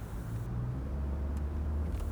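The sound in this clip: A car drives slowly through a town, giving a quiet, steady low rumble of engine and road noise with no distinct events.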